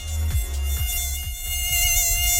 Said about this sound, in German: Es gibt doch wirklich nichts Nervigeres, als wenn nachts im Schlafzimmer eine Mücke rumschwirrt, ja?